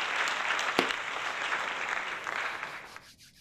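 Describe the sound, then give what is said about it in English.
Audience applause greeting a guest on a music television interview show: steady, dense clapping that holds for a few seconds, then thins and fades at the end. “Ladies and gentlemen, give it up for our guest.”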